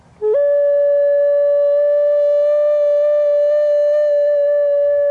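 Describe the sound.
A recorder plays an ethereal tone during a performance in a sculpture garden in Landsweiler-Reden. A brief lower note steps up to one pure, steady sustained pitch that holds evenly and loudly for several seconds, with no voices.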